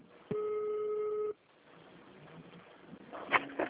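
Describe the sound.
Telephone tone as a call is transferred to an extension: one steady electronic beep lasting about a second, then quiet line hiss with faint low rustling and a few soft knocks near the end.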